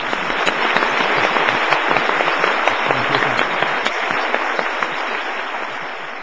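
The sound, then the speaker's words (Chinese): An audience applauds for Jesus Christ during a bilingual Chinese and English church service. The clapping is dense and continuous throughout, with sharp individual claps poking out and a slight easing toward the end. “现在要为耶稣基督鼓掌了。”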